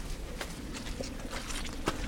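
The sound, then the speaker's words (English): Footsteps squelch through a deep, boggy field on a walk. Several soft, wet steps fall in an uneven rhythm, fairly faint throughout. “Squelchiest, boggiest walk ever.”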